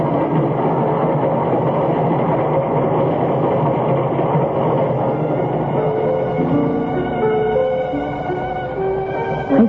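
A train at a railway station platform gives off a loud, steady mechanical rumble that holds throughout. Thin whining tones emerge in the latter half, and no voices are present.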